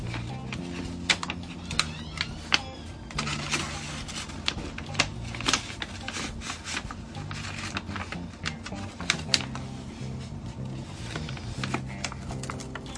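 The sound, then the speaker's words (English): Office ambience with keyboard typing: many irregular key taps and clicks form a steady, busy clatter over a continuous low background, with no clear speech. “are you missing the office? Are you missing your fellow cubicle jockeys? How about the actual sounds of an office? If so, listen to this.”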